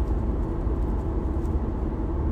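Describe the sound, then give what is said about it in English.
A car drives along the road with a steady, low rumbling hum and no talk; no distinct gear shift stands out. “if you can get past me shifting gears and being on the road, I think this is worth your time”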